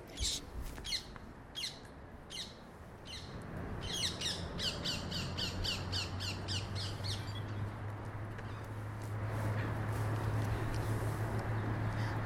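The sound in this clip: Birds squawk overhead in a string of harsh, repeated calls that come thick in the first half and then thin out over a steady background noise.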